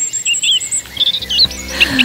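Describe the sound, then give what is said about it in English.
Birds in an English dawn chorus give varied high chirps and short whistled phrases that overlap in quick, loud bursts over a soft background hiss. “Ah, England's dawn chorus. Beautiful, isn't it?”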